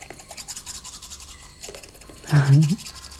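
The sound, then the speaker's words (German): Teeth being brushed with a toothbrush: rapid, scratchy rubbing strokes repeat throughout, and a short low voiced sound cuts in partway through. “Das ist übrigens eine ganz besondere Zahnbürste, die schwarze.”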